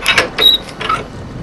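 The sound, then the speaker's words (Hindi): A door being opened at home gives a few short mechanical clicks and rattles of the latch and handle, quick and fairly faint, with no one talking. “मैं जरा मुंह तोलवा, तू दरवाजा खोल।”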